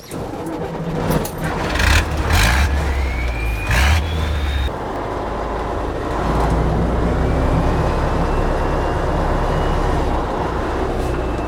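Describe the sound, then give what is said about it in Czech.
A Tatra expedition truck drifting, its loud engine roaring with a whining tone that climbs in pitch over the first few seconds, then settles into a steady, heavy rumble with a fainter high whine. “Mám pocit, že je to dneska víc driftování než cokoliv jiného. Ano, ano, tak by se to mohlo nazvat. Přímá jízda z toho moc nejde vyklouzlit. Občas nás předbíhá zadek.”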